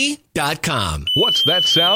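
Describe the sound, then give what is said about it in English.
A dock electrical hazard alarm, warning of unsafe electricity in the water around a boat dock, sounds a steady, piercing high-pitched tone that starts partway in and continues under a voice speaking. “That's the sound of the dock lifeguard warning you it's not safe to be in the water around your boat dock.”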